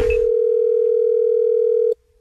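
Telephone dial tone on an outgoing call: one steady, unbroken tone holds at an even level for about two seconds and then cuts off abruptly.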